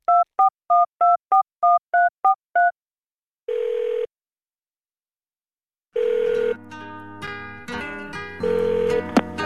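Telephone keypad tones as a number is dialed: eight quick, evenly spaced beeps in a fast run, followed after a pause by longer steady tones and a denser, layered tonal sound.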